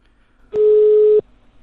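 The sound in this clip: A single steady telephone tone after dialing a number: one loud, even, mid-pitched beep lasting about two-thirds of a second, alone over faint line hiss.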